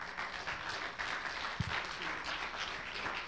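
A church audience applauds to welcome a visiting preacher to the front. The clapping is soft but steady and fills the whole short stretch, with one brief thump partway through.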